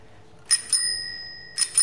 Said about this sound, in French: Donc je suis très contente de voir ce vélo de 1960. Et puis la sonnette marche normalement, puisque l'artisan me l'a mise.